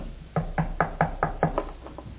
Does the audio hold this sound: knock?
yes